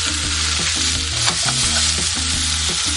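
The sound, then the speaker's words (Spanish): Onion browns in butter in a frying pan for a cheese steak, giving a loud, continuous sizzle with soft scraping from stirring throughout. “Se dore un poquito la cebolla con la mantequilla.”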